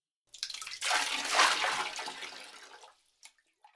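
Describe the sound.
Water splashing and sloshing in a bath: a broad rushing swell builds and fades over about three seconds, followed by a couple of faint small splashes, with no talk.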